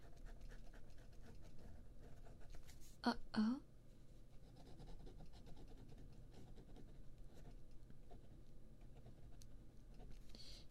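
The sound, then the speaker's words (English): Pen writing on paper, a faint, continuous scratchy rasp of strokes with a brief louder scraping burst partway through. “Hang on, I'll continue writing.”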